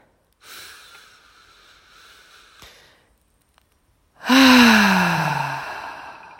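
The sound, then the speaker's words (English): A deep breath during a guided relaxation exercise: a soft, slow inhale of about two seconds, a short silence, then a loud voiced sighing exhale whose tone falls in pitch as it fades. “So just take a deep breath in.”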